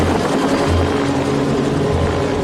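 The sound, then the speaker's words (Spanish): An agricultural helicopter from Los Angeles drones loudly and continuously, its rotor and engine roar carrying a steady low throbbing pulse throughout the short clip. “¡Es un helicóptero agrícola de Los Ángeles!”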